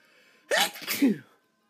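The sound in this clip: A single sneeze, sharp and explosive, bursting out after a quiet moment and trailing off in a breathy second push, with no talk around it.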